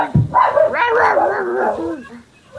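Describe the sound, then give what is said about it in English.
A dog vocalizes in one long, wavering, howl-like yowl that rises and falls in pitch, opening with a short low burst and fading near the end. “That's my dog.”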